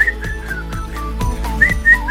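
A person whistles a tune, clear bright notes that glide and waver in pitch over a steady, evenly spaced tapping beat, with no speech.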